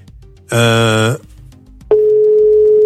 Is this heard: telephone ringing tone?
yes